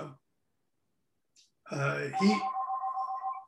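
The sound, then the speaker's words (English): A mobile phone ringing: a steady electronic tone pulsing in a quick, regular pattern for over a second, just after a brief vocal sound. “there's my phone ringing there.”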